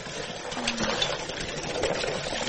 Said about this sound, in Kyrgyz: Ушундай качайт этип ичебиз сууну. Мурун арыктан колдончубуз да, азыр ушул качалка менен колдонобуз.